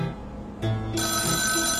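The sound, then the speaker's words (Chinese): A mobile phone ringtone goes off in a cinema just before a movie starts. An electronic tonal melody cuts in abruptly after a quiet moment, turns brighter and fuller about a second later, and holds at a steady level. “手机要关静音了，不然这样会吵到别人哎。”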